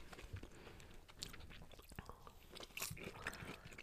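Faint, moist chewing and soft bites of mandarin segments, a few quiet crunchy bursts over a low, continuous mouth sound.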